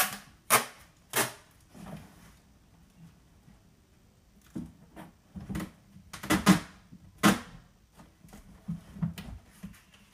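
Sticky tape is pulled off a cardboard packing box in a series of sharp, crackling rips. The bursts come at an irregular pace, with a couple of strong ones early and a denser cluster later.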